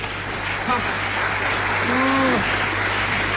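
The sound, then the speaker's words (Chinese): Audience applause during a live comedic performance, a steady dense patter of clapping that holds evenly, with a voice briefly rising over it. “各位朋友，咱给他鼓鼓掌，就让他唱。”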